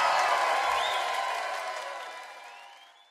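Audience applause for a singer after a performance: a dense wash of clapping that is loud at first and then gradually fades away.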